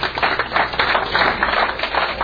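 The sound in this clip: Applause from an audience at an evening marketing seminar, a steady, dense patter of many hands clapping at moderate loudness with no talk over it.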